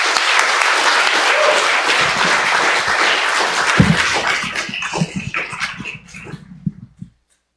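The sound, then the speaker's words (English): Audience applause welcoming a speaker to the stage: dense, sustained clapping that thins out into scattered claps and stops near the end, leaving silence. “why don't we just give a warm hand of welcome to Kevin Hong.”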